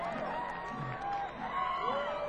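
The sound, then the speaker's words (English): Crowd cheering at a band's live show, with high female woos gliding up and down over a soft, broad murmur of the audience, all at a fairly faint level. “Those sounded like female woos also. So that's a good sign.”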